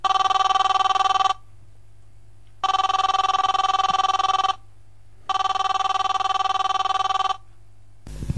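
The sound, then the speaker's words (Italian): A telephone rings out on an outgoing call: three long, loud electronic rings, evenly spaced with silent gaps between them, and no voices. “Lo possiamo chiamare subito? Sì, quindi chiamiamo subito Luciano Moggi”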